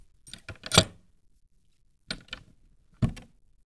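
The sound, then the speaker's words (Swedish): Copper lid on a copper outer casing being opened, with envelopes stored inside: a few brief metallic clanks and scrapes in short bursts, first a quick cluster, then a pair, then a single final knock, with no talk. “Den är inte låst ännu, så kan ni glänta på locket här, så får vi se hur det.”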